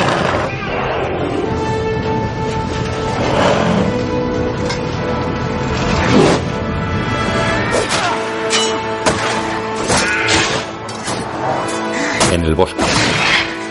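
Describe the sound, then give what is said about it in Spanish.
Sword clashes and heavy impacts sound as a warrior fights an army of orcs in a Spanish-language Lord of the Rings audio drama. Loud crashes and thwacks grow denser toward the end over a sustained tonal music score. “Lentamente avanza hacia ellos, empuña su espada con ambas manos y lucha contra los que corren hacia él.”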